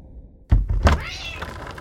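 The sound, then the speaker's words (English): A cat gives one drawn-out meow that follows a low, heavy thump, standing out loud and clear against a quiet background. “Kitty! Oh, wow. A pink kitty. Yes, that's the cat that won't stop stealing my milk.”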